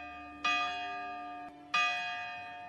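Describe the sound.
A church bell rings in the morning with two separate, resonant strokes. Each bright, metallic tone hangs and slowly decays before the next.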